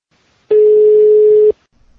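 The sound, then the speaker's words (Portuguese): Telephone ringing tone on an outgoing call: a single steady, mid-pitched beep lasts about one second and stands alone, followed by near silence. “Vamos fazer um teste? Vamos ligar para alguém agora?”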